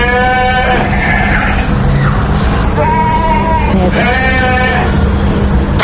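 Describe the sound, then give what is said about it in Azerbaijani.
Livestock kept in pens outside a five-storey dormitory, heard as several loud, drawn-out bleats in succession over a steady low background hum. “5 mərtəbəli binanın qarşısında tövrələrdə saxlanılan mal qara, toyuq cücə səslərinə, binanın qarşısındakı soyuq artezyan suyunda növbə ilə paltar yuyan qadınların söhbəti də qarışır.”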